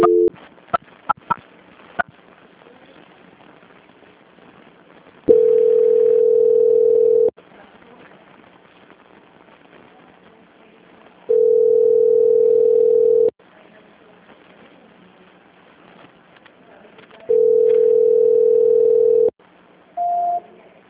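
A steady telephone line tone plays during a call transfer, repeating three times at even intervals with each tone lasting about two seconds over a faint hiss. It begins with a few sharp clicks and ends on a brief higher-pitched beep.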